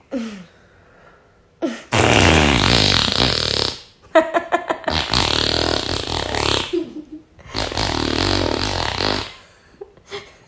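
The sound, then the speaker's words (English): Fart sounds, loud and rasping, come in a few long, sputtering blasts separated by brief pauses, with one choppier, fluttering burst between them. “Somebody farting, of course.”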